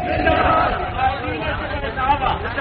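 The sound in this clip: A rally crowd answers the Naara-e-Takbeer chant in a loud, massed shout, many voices merging into a dense roar that swells and dips briefly.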